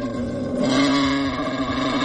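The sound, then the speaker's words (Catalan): Wild boar sound effect: a continuous, rough, low rumble with dense harmonics that sounds almost like an engine and stays loud and steady throughout. “FX Senglar. D'acord? Sorollet de Senglar per començar el matí.”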